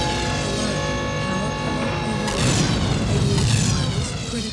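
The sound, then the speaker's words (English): A missile strikes a space station whose power system is failing: a steady tonal hum is suddenly joined midway by a deep, broad boom that keeps rumbling loudly beneath it to the end. “That missile got off course and hit the station. The power system is going haywire.”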